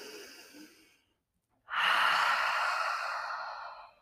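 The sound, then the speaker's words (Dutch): Deep breathing from the belly: a soft, airy breath fades out, then after a short silence a long, loud rushing breath swells and slowly tapers away; no talk. “ik haal dan een paar keer diep adem vanuit mijn buik. Ik zet mijn buik uit.”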